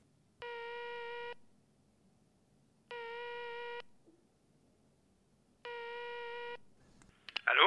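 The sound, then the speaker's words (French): A telephone line rings on speakerphone with three steady, buzzy ringback tones, each lasting about a second and separated by even gaps of near silence. A brief clattering noise follows right at the end. “Si vous voulez, oui. Mettez-le au parleur.”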